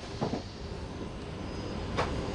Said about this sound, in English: The morning commuter train from Alcalá de Henares glides onto the platform on time at 7:49 a.m.